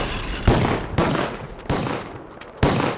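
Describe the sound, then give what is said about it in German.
Gunfire in a battle near a church, a sound effect in a radio drama: four loud, sharp shots at irregular intervals. Each shot leaves a brief, rumbling tail. “Woher kommen die Schüsse? Offensivfeuer von hinter der Kirche.”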